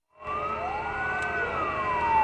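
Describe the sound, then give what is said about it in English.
Sirens wail in Yushu Prefecture, China, during a day of mourning for earthquake victims. After a moment of silence the wail starts up and holds loud and continuous, with several overlapping tones sweeping slowly up and down. “Officials ordered the flag to half-staff as sirens and car horns wailed in Yushu Prefecture, the site of last Wednesday's quake.”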